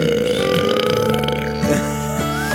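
Burping: one long, loud belch drawn out for over two seconds, with a rough, wavering tone and no talk over it.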